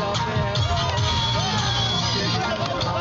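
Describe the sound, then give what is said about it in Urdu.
Cricket spectators filling the stands at Colonel Sher Khan Stadium in Peshawar, a dense hubbub of crowd chatter and scattered shouts at a steady, fairly loud level. “تماشائیوں کا شور غل، ہلا گلا، یہ منظر ہے پشاور کے کرنل شیرخان سٹیڈیم کا، جہاں کرکٹ تو نہیں کھیلی جا رہی لیکن فینس کو سٹیڈیم میں بیٹھ کر میچ دیکھنے کا موقع پھر بھی مل رہا ہے۔”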